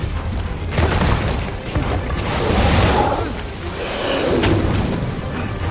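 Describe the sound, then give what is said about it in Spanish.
A giant serpent spits fire inside a temple as a film sound effect: a loud, continuous roaring rumble with swelling whooshes that rise and ease over several seconds, heavy in the low end. “La serpiente persigue a Beck por dentro del templo, escupiéndole fuego.”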